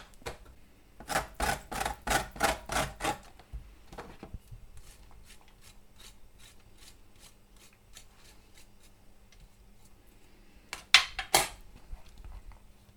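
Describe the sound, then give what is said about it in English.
Lemon peel is rasped against a grater in a quick run of about six rhythmic scraping strokes. Quieter scrapes follow, then a couple of sharper strokes near the end. “We could grate 2 lemons and then we'll judge it later on how much peel we're actually going to put in.”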